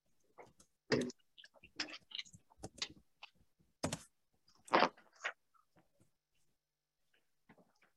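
Faint irregular bursts of keyboard clicks as a company name is typed, short clusters of keystrokes separated by brief pauses and fading toward the end.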